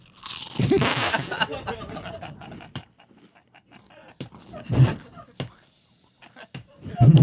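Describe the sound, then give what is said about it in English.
Someone crunches potato chips. A loud burst of crisp crunching is followed by sparser, quieter chewing crunches, and another loud burst comes at the end. “Can a guy be eating chips?”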